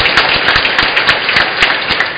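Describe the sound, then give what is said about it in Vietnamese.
Applause from a church audience at the patronal feast of Vinh Hoa parish church, with dense, steady clapping that continues without a break from start to end. “Và cùng toàn thể cộng đoàn dân Chúa, cách riêng các vị tông đồ phục vụ giáo xứ trong những đồng phục rất đẹp của mình, xin chúc mừng nhau một tràng vỗ tay thật lớn.”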